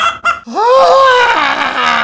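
Chicken squawk: a loud, harsh, drawn-out cry that rises sharply and then holds. It follows two short, rough bursts and stands alone with no talk.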